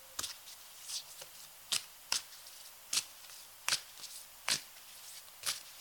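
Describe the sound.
Tarot cards being shuffled by hand: repeated crisp riffling snaps at uneven intervals, fairly faint, with no voices.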